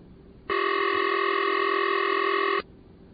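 A ringing tone from a later-model telephone exchange tone plant, recorded at a museum, is heard: one steady, buzzy, harmonic-rich tone holds for about two seconds, then cuts off, with nothing else over it.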